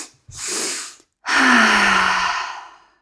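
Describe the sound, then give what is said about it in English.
Two audible mouth breaths taken as a relaxing breathing exercise: a short breathy rush, a brief pause, then a longer, louder airy breath that slowly fades, with no talk over them. “So it's like you're taking 2 sharp inhales. It goes like this.”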